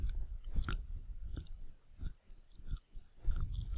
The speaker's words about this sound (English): Now it sounds like you are eating something soft